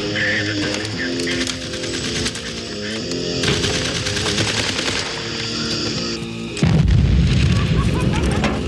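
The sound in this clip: Explosions and rapid machine-gun fire fill a war trench. Dense, continuous bursts of gunfire run throughout, and a heavy, loud low boom breaks in near the end.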